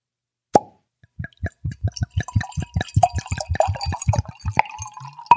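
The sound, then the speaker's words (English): Red wine from Washington State glugging as it is poured into a fine crystal glass: one sharp tick, then a steady run of many rapid, low gurgling glugs that continues to the end, with no talk over it. “That is the sound of Washington State red wine in the finest of crystal. That is a nice sound.”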